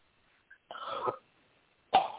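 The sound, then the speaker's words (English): A person coughs, producing two harsh bursts separated by a pause of about a second, with a tiny click before the first. The coughs are fairly quiet and surrounded by silence. “Just cough that thing out.”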